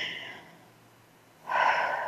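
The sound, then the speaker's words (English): Breathing during a guided relaxation exercise, drawing air in through the nose and letting it out through the mouth. A soft, airy intake is followed by a pause, then a louder, rushing exhale. “So breathe in through your nose, all the way to your toes, out through your mouth, like through a straw.”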